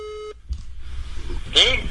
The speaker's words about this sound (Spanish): Venga, vamos a llamar al azar a ver aquí.